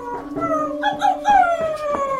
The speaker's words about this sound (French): Mon chien s'est mis à hurler à la mort devant la porte de Monsieur Bergamotte.